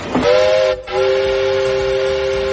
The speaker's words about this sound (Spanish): que como pita esto, de verdad, el tren